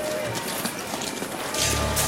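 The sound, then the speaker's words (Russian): Running footsteps of people pushing through bushes toward the listener, a steady rustling, crunching patter that stays fairly loud throughout, with a low rumbling hum joining in for the last half-second. “Вот они через кусты пробираются, в нашу сторону бегут.”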